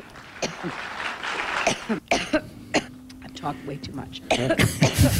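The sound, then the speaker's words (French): An edited montage of a woman's coughing fits: many sharp, rough coughs and throat clearings in quick, irregular bursts, some harsher and louder toward the end, with voice sounds mixed in between. “ils ont fait un montage de 8 minutes des toux de Hillary. Écoutez.”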